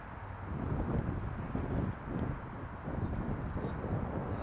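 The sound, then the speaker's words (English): Strong wind gusts buffet the microphone beside a jump platform, making a low rushing roar that swells and eases in waves. “pretty windy. And the fact that it's pushing me back towards the platform is not... it's the worst way for the wind to be going, in my opinion.”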